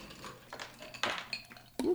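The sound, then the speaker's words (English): Ice drops into a cocktail shaker as a drink with apple nectar is prepared. A few faint, sharp clinks and rattles come in separate bursts, with the last one the loudest. “First things first, if you guys have a shaker or if you have a mason jar or something that has a lid, that way you guys can shake it. You want to go ahead and put some ice in your shaker.”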